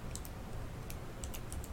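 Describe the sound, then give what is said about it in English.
Typing on a computer keyboard produces a run of quick, faint key clicks in an uneven rhythm over a steady background hiss. “I've hacked into Destiny's channel and I'm typing in her name”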